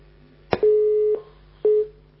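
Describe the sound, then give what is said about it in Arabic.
Busy tone on a telephone line after a disconnected call: a sharp click, then two steady mid-pitched beeps, the first about half a second long and the second cut short, with a low hum underneath and no voices. “اتقطع اتصال، معلش بقى عاود تاني”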